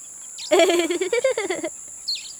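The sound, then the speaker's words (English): Bird chirping comes as a quick, tuneful warble of about a dozen short pulses, fairly low and steady in loudness, heard alone amid children's talk about animals. “They're birds.”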